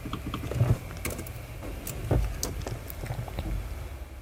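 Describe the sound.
Soft, quick clicks of typing on a computer keyboard while entering a search term, a loose string of light keystrokes at low volume with no talking.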